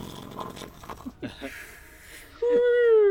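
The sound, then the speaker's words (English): A voice imitates loud snoring in a tabletop role-playing game, giving a few rough, breathy snorts and rasps, then a sustained voiced tone at the end. “she sort of like snores ridiculously loudly, like”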